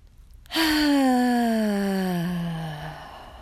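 A deep, loud out-breath during a breathing exercise, voiced like a long sigh, begins abruptly and glides slowly downward in pitch for about three seconds before fading.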